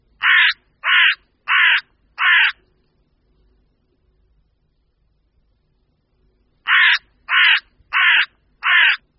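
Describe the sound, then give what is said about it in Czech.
Carrion crow cawing: eight loud, harsh caws in two groups of four, with a quiet pause between the groups. “Vrána obecná.”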